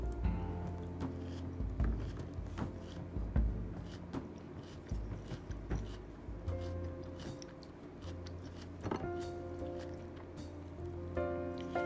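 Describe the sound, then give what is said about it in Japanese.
Chewing while eating salad, with many soft crunching and squishing bites in an irregular rhythm, fairly quiet over a steady low background. “ちょっとサラダだけ食べるわな”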